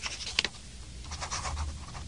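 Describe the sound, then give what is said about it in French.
A pen writes on paper with soft, quiet scratching strokes. A sharper pair of scratches comes early, then lighter, uneven strokes continue. “Oui, il écrit avec un stylo. Il écrit sur le papier.”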